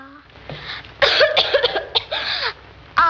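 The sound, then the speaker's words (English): A schoolgirl with a lingering cough lets out a harsh fit of several rough coughs in quick succession, loud and breathy, and a voice briefly begins right at the end. “That cough doesn't seem any better”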